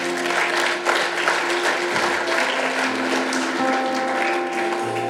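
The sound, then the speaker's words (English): An audience at a church service applauds with dense, steady clapping that stays loud throughout, with a faint low hum underneath. “Let's give him a hand.”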